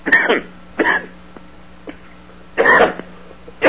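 Harsh coughing from a person with bronchitis comes in a few separate loud bursts, with short quiet pauses between them and another cough starting at the very end.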